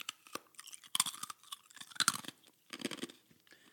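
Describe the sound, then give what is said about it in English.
Someone crunching and chewing on ice: many crisp, irregular crunches and wet chewing clicks in clustered bursts with brief pauses, fairly faint and heard alone without talk. “He's here crunching on ice and sucking on ice and making noises all the way throughout”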